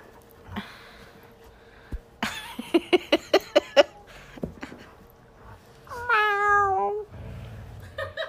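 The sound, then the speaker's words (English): A cat's meow, one wavering, tonal cry that bends in pitch, follows a quick run of sharp clicks and a few soft thumps. Everything is faint, with quiet gaps between the sounds. “You have a cat in here too? Meow. That's what that sounded like, I know.”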